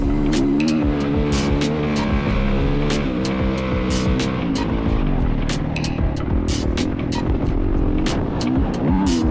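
Motocross bike engine recorded onboard during a fast lap of a mini-bike race track, including a wheelie up a hill: a continuous buzzing engine with wavering pitch and many sharp clicks and clatters, with no talk.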